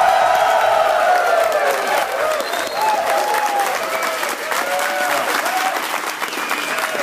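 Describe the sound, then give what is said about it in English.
A live studio audience claps at the Triangle Fraternity National Convention in Alabama. The applause is loud and continuous, with scattered cheers, and holds steady for the whole stretch before easing slightly at the end. “we're broadcasting live at the Triangle Fraternity National Convention with a live studio audience. Let's hear it! Come on!”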